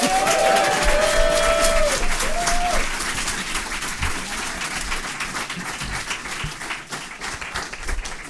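Audience applause at a live show in the Ann Arbor District Library welcomes four hosts to the stage. Steady, dense clapping with a few whoops early on gradually eases in loudness.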